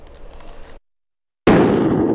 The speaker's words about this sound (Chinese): 然而，接下来的消防实验提醒您，使用不当，自热锅会变成餐桌炸弹。